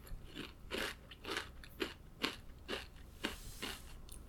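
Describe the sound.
Crunchy snacks being bitten and chewed: a quiet, steady series of crisp crunching and crackling bites that come in uneven bursts, with no talk.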